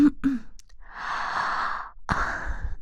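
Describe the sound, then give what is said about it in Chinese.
A person yawning: a long, airy, breathy exhale of about a second, then a second shorter breathy burst, with no talk. “不是说哈欠传染人吗？我这样打哈欠，然后你们也就跟着。”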